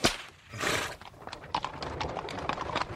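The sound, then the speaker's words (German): Hooves clip-clop as a horse-drawn carriage rides along. Irregular hoof strikes and a broad rolling rumble fill a short stretch, with no talking. “Komm, wir nehmen eine Kutsche.”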